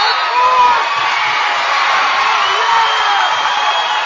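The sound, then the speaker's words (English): A home crowd cheers wildly at a volleyball match, a dense, loud, steady roar that holds without a break. “You can hear the Winfield faithful behind me going bonkers as they now lead the Nikes 23-22 in set number two.”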